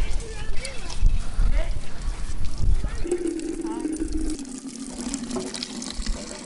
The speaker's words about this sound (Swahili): Hili ni bomba la kusukuma ama kupush wanasema hivyo, ama mdundiko kwa namna ambavyo linafahamika. Lakini na wana pia watu wanachota maji hapa. Kuna kijana ambaye anapush hayo maji.